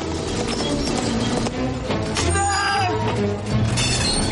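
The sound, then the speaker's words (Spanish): A Kubelwagen crashing into a tank in a 1989 Indiana Jones action film, a busy burst of metallic smashing and clattering with scattered clinks and knocks amid a dense soundtrack. “El Kubelwagen se estrella contra él y queda enganchado en el cañón de la torreta.”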